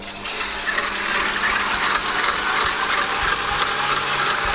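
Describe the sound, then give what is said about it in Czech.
Electric mixer whipping cream, a loud, continuous whirring motor hum with a rough, steady rattle that holds unchanged throughout. No voices are heard. “Takže jsme pěkně zapli šokéreček na 5 na 10 minut a teď si vyšláme šlahačku.”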